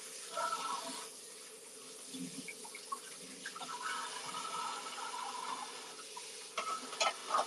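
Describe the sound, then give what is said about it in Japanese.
Running tap water pours steadily into a sink while stuck-on dirt is washed off, a faint continuous hiss broken by small splashes and light clinks of items being scrubbed. “なんか洗ったら汚れ落ちないんだよね、俺。こびりついてんな。”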